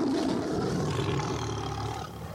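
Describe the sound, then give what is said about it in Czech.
A lion's roar, voiced by a giant who has changed into a lion, rumbles deep, rough and loud as one continuous blast, easing slightly near the end. “A obr se přeměnil ve lva a zařval, až se zámek otřásl.”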